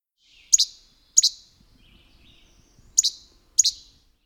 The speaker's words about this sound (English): They do have a whit call that is very similar to the other impids, and that is what this sounds like.